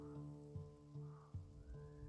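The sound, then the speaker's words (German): Heavy rain in a tabletop role-playing scene, a faint steady patter beneath soft sustained music with a few gentle swells. “Es beginnt zu regnen.”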